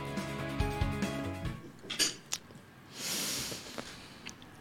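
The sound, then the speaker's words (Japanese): Faint clinks of cutlery against a dish as someone eats a dish with onion: a few light, sharp taps with quiet scraping between them, spread over a few seconds. “ちょっと玉ねぎも玉ねぎも一緒にいただきます。”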